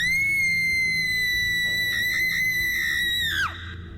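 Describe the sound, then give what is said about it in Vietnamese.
A piercing scream rings out in a tiny bathroom, a shrill, sustained high-pitched cry holding steady for over three seconds before its pitch drops sharply and it cuts off, over a faint low rumble. “Giây phút lưỡi dao vừa lộ ra thì một tiếng hét chói tai từ đâu vang lên, làm cho Dư Tô run rẩy.”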